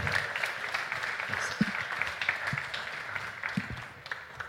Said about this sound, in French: On peut les applaudir, s'il vous plaît, une nouvelle fois.